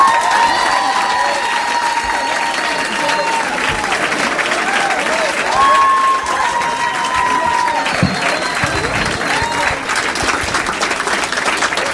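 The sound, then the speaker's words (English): Sustained, dense applause from a comedy club audience in Minneapolis on a Saturday night, loud and steady for the whole stretch as the comedian is welcomed to the stage. “Please make some noise for Matt Kirshen.”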